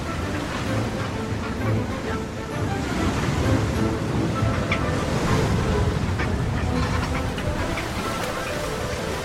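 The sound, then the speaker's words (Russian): Penguins climb out of the water onto a rough lava shore amid steady surf, with continuous breaking waves and honking, goose-like calls rising through the wash. “Пингвины пытаются выбраться на берег из воды.”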